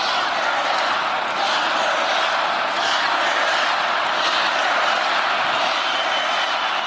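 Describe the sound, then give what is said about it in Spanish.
An audience chants at the Republican National Convention, a dense, continuous roar of many voices that holds at an even, loud level across the whole stretch. “That was the audience in the RNC chanting.”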